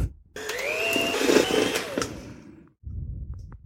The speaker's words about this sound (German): So, jetzt habe ich die Butter mit dem Puderzucker oder Staubzucker, wie er auch genannt werden kann, und der Zitronenschale schon mal schaumig geschlagen.